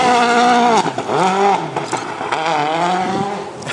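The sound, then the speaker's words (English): A Citroen DS3 rally car races past on a hillside corner of a rally stage, its loud, buzzy engine note revving hard, dipping sharply at gear changes and climbing again as it drives by. “It's a Citroen C4, DS3 even.”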